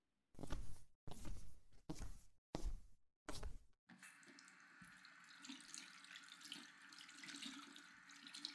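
Tap water runs in a bathroom as hands are washed: five short gushing bursts start and stop, then a steady, softer stream of running water carries on, with no voices.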